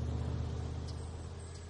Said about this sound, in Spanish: El coche sale del patio de los White y sigue al otro coche negro por la carretera.